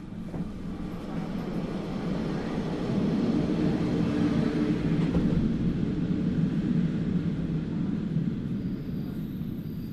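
Trains rumble on the rails at a railway station in Baden, a steady low mechanical drone that swells slightly after the first few seconds and then holds evenly loud.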